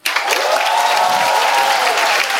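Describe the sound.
Audience applause, a dense, steady wash of many hands clapping that starts abruptly and holds at an even, loud level for the whole stretch.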